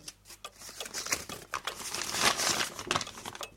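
Paper crinkles and rustles as a letter is handled and unfolded, a run of soft irregular crackles that swell slightly toward the middle and stay fairly quiet overall.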